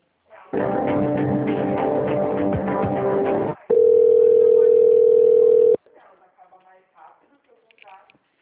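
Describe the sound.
Telephone line tones while a call is transferred: a buzzy, steady tone runs for about three seconds, then a louder pure steady tone holds for two more before cutting off, followed by a voice speaking.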